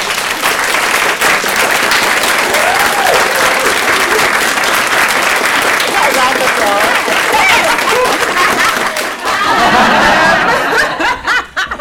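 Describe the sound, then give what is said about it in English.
Round of applause for a panel at the Hebden Bridge Burlesque Festival: loud, sustained clapping from an audience mixed with chuckles and laughter, with voices talking through it before it surges again and then breaks off. “In that case then, I wonder if you could maybe join me in giving a round of applause to these rather than”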